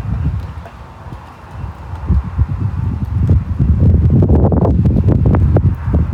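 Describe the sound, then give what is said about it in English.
Wind blowing across a microphone outdoors: low, rumbling buffeting gusts that swell and grow louder and rougher toward the end, with no clear voices. “Yeah, we're definitely gonna have to figure something out for you for this wind thing.”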